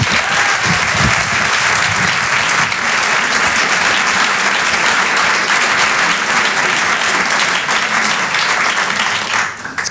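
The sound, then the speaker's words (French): A comedy club audience applauds loudly, a dense, steady wash of clapping held for about ten seconds without a break, easing off only at the very end. “Rire et Chanson Comedy Club. Faites du bruit s'il vous plaît pour Victor Jesquière.”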